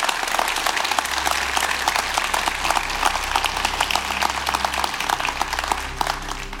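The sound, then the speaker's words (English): An audience applauds to welcome a worship singer at a worship service. The clapping is dense and steady, without a break, for the whole stretch. “I wanted to give a warm welcome to Tasha Layton, who is here to lead us in worship and to speak. So let's give her a warm hand.”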